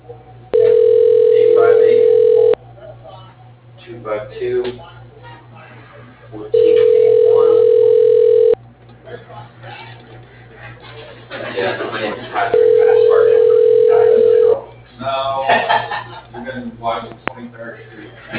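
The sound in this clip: A telephone call being placed: three steady, two-second tone bursts repeat at even intervals while people talk in between.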